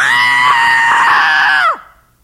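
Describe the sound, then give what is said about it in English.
A person screams loudly in one long, sustained, high-pitched shriek that holds steady, then drops sharply in pitch as it cuts off. “I have no idea how loud I scream. Scream was loud. I've only done it once. Where's Megan? Scream your very life depended on it.”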